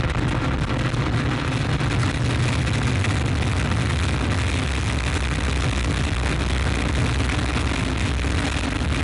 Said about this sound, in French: top, allumage Vulcain. Allumage confirmé. Top, allumage UAP, décollage.